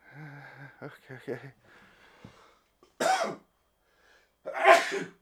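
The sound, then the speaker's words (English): Talk and a held-back sneeze are followed by two sharp, noisy bursts, and the second burst is the loudest. Quieter voice sounds come before the bursts, with a silent pause between them. “There's that sneeze that was being held off at arm's length for so long. It finally came out.”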